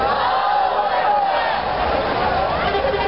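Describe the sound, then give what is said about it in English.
A crowd at a Palestine solidarity gathering shouts a loud takbir. Many voices merge into a sustained, continuous roar with no break. “Can you welcome her with a loud takbir?”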